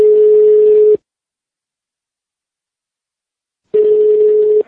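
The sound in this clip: A telephone call rings out with a ringback tone: two steady, mid-pitched buzzing tones, each about a second long, separated by a long silence and heard alone.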